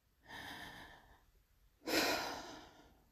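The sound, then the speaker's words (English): Slow, quiet human breathing: one soft, drawn-out inhale, a short pause, then a louder, breathy exhale that gradually fades. “Breathe with me.”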